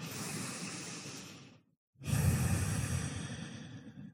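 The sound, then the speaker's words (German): Deep breaths in and out during a guided relaxation exercise: one long, soft, airy inhale, a brief silent pause, then a fuller, slightly louder exhale that tapers away, heard alone. “Und dann nimm hier ein paar vertiefte Atemzüge ein und aus.”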